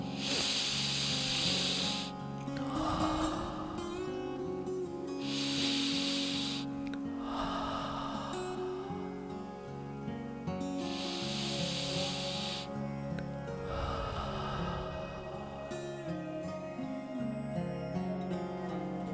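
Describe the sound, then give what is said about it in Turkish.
Slow exhalations released through the mouth with a soft, unforced 'hoh' sound during a breathing exercise. The breathy hisses come as a few drawn-out releases separated by pauses, over a steady, quiet tonal background. “Dikkat etmeniz gereken tek şey nefesi üflemiyoruz. Sadece basit bir hoh sesiyle bırakıyoruz.”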